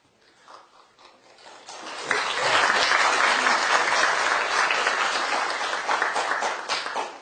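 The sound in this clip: Students applaud in a university lecture room after a speech: a light patter of claps for the first two seconds, then a full, loud burst of clapping that stays sustained until the end.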